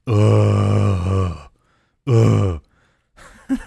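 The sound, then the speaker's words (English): A voice imitates a white dove's long, low moans: two drawn-out, mournful moaning tones, the first long and sustained, the second shorter, followed by a brief breathy sound. “That's what my white dove would sound like. Every afternoon it returned to moan and sigh on the snowball bush.”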